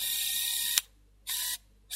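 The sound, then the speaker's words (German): Mechanical camera shutter bursts as a photographer shoots letters and postcards lit on a living-room floor: three crisp bursts of whirring noise with short quiet gaps between them. “Ein Fotograf leuchtete die im Wohnzimmer auf dem Boden liegenden Briefe und Postkarten aus – um anschließend mehr als zwei Dutzend Fotos aus verschiedenen Blickwinkeln zu schießen.”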